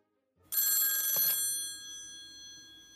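A telephone bell rings once for an incoming caller, a bright metallic trill with a sharp onset. The ring cuts off and leaves a soft fading tail against a quiet background.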